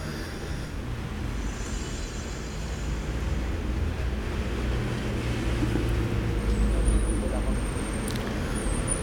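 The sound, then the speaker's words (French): Street traffic with a van and several cars passing, while pedestrians cross close by. A dense, steady rumble of engines and tyres stays fairly loud and continuous throughout, swelling slightly toward the middle and end. “une camionnette Pignot, plusieurs voitures. Des gens qui traversent à quelques centimètres de moi.”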